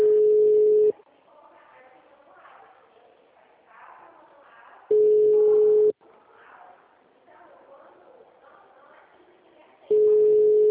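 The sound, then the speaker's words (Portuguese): Ringback tone of an unanswered phone call: three steady beeps, each about one second long and spaced roughly four seconds apart, with people talking quietly in the gaps between them. “Não tá atendendo. O número não responde.”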